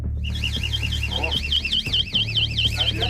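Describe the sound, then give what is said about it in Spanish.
A high electronic alarm rigged inside a house warbles steadily up and down, sounding continuously over a low background hum. “Esa es la alarma.”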